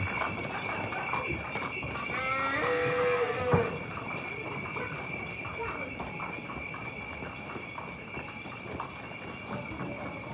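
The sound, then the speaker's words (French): A cart passes close by on a village path, with clip-clopping hooves and rolling rumble under a steady, faint background; people talk nearby. “Attention, chariot. Ah, merci beaucoup. Elle est passée près, la charrette.”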